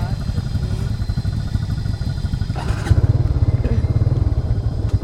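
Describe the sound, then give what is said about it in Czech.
Motorcycle engine running with a fast, even throb, a brief clatter midway, then heavier and louder pulsing as riders mount and head off from the jungle at night. “zpátky na motorce, nasedáme.”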